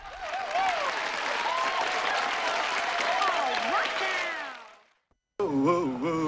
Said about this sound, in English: Michael's the only one not joining in the applause.